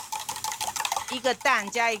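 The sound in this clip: Cooking danbing, a Taiwanese egg pancake made with egg and wheat flour dough: quick scraping and clattering of a utensil on the pan, with a voice talking toward the end.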